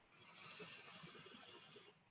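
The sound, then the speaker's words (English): A single long, deep breath, drawn in as a steady airy hiss that swells quickly, holds for nearly two seconds and then eases off. “Yes, take a deep breath.”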